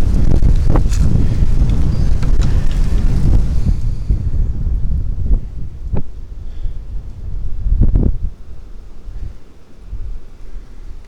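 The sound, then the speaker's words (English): Strong outdoor wind buffets the microphone in a narrow bottleneck, making a loud, continuous low rumble that swells and eases in gusts, with occasional sharp thumps and crackles. No talk. “Okay, had to kill the gain there. The wind is so bad.”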